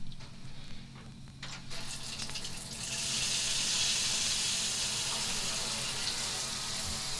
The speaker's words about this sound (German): Ich glaube, ich muss mal meine Dusche anstellen.